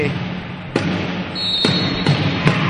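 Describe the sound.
Volleyball serve in a women's match, a float serve by the Cerea side, heard as a few sharp ball impacts spaced over steady gym background noise.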